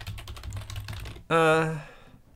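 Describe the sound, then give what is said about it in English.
Typing on a computer keyboard to search online: quick, rapid key clicks for about a second, then a bright sustained tone that slowly fades away. “I've got to Google it.”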